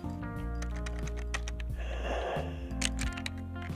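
A computer keyboard is typed on while a person's age is entered into a search. The light, irregular clicks come in quick runs over a steady tonal background.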